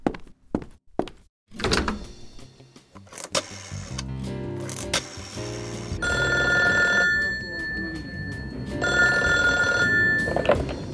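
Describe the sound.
A telephone rings as a call is placed, with a few knocking thuds at first, then bright tonal ringing that comes in bursts separated by a pause.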